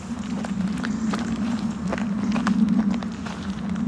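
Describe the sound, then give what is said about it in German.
Footsteps of people strolling very slowly: soft, irregular steps over a steady low hum. “Also das, die Geschwindigkeit, die wir jetzt gehen, es ist eigentlich kein Gehen, oder? Nein, dazu sagt man schlendern.”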